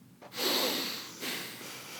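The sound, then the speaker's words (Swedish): Breathing in and out through the nose during a meditation exercise: a soft, airy nasal rush that swells, eases, then returns as a second breath, fairly faint with no talk. “Och man ska andas in och ut genom näsan.”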